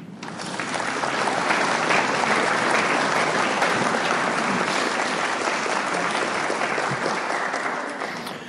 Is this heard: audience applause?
yes